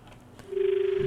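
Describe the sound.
A telephone line tone from a dropped call: a faint, steady single-pitched tone starts about halfway through and holds level to the end.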